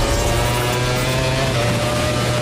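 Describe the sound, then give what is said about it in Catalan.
Maverick Viñales's Aprilia MotoGP racing motorcycle gives a loud, steady engine drone with sustained tonal whine and no clear change in revs. “Aquesta és la moto de Maverick Viñales. L'Aprilia de MotoGP, Maverick Viñales”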